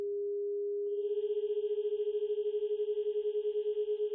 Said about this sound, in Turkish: Telefondaki çevir sesi 425 Hz.